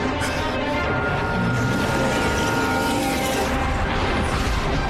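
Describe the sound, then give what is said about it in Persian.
An airplane flying overhead makes a loud, continuous droning roar with a steady humming tone running through it, holding an even level from start to finish. “نگاه کنید تو آسمون یه پرنده است. نه، هواپیماست.”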